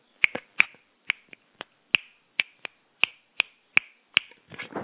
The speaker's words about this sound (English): if I stop talking and try to convey my thoughts via snapping my fingers, as I will do right now,